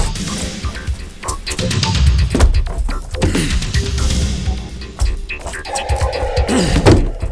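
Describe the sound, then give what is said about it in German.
A solid oak door being forced open, heard as a series of heavy, irregular thuds and bangs with scraping in between, loud and uneven in rhythm across several seconds. “Gehen Sie zur Seite, ich breche die Tür auf.”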